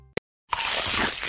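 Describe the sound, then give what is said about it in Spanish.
Crunchy bite into a snack: one sharp click, a brief silence, then a loud, dense burst of crackling crunch that continues to the end. “Crujiente a cada mordida.”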